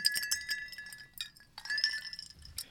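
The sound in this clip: Glasses clink together in a toast, with many bright, ringing clinks that overlap in quick clusters, each chime leaving a short, high resonance, heard at a soft level.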